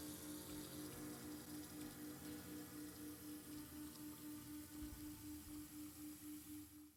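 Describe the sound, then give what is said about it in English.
Water runs steadily over worms being rinsed in a colander, a continuous even splashing hiss with a faint low hum beneath it and no pause throughout. “Freshening these worms up in the colander. Mm-hmm. Gotta rinse all the juice off them.”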